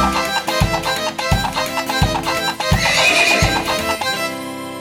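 A pony's whinny rings out over a cheerful children's song, set against steady, rhythmic low thumps that suggest galloping hooves keeping time with the music.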